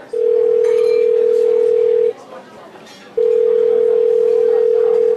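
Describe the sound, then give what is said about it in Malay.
Steady telephone dial tone heard while a call is being placed: a loud, single-pitched hum that cuts out for about a second and then resumes at the same pitch. “Jap-jap, nak call Rizal kejap lah.”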